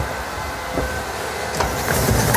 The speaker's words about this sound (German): Das ist quasi die Kühlung vom Batterieladegerät.